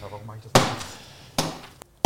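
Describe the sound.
A hammer strikes frozen ground with two heavy, sharp blows a little under a second apart, followed by a faint smaller knock; a low voice is briefly audible at the start.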